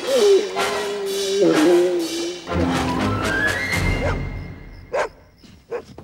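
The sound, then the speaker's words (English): A dog howls outside, a long wavering tonal cry that later climbs higher in pitch, mixed with other noises and followed by a couple of short thumps near the end. “Outside, a dog howls in sympathy.”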